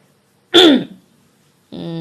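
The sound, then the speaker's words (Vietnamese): A man clearing his throat once, a short rough burst that fades quickly. After a pause, a voiced sound begins near the end. “Ái Lì gượng gạo thì nghe Duy Thành hắng giọng”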